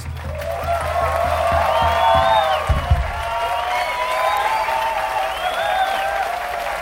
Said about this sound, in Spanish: Esos aplausos no eran para vos ni para mí, eran para Charly.